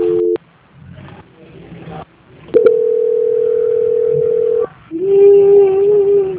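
Telephone tone during a call transfer: a short tone, then a gap with faint background sounds, then a loud, steady, mid-pitched tone held for about two seconds.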